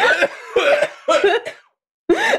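A person coughs loudly in a string of harsh, hacking bursts, then pauses briefly before one final cough.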